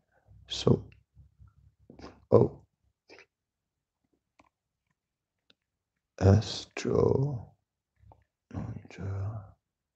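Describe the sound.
Faint keyboard clicks as a search word is typed on a computer, a few quick light taps scattered between stretches of speech.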